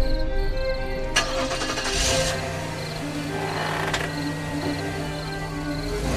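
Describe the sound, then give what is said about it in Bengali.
A car engine starting: a brief crank, then a steady, low running hum that continues to the end. “গাড়িতে start দিয়ে বেশ কিছু দূর এগিয়ে যায় সুলতা”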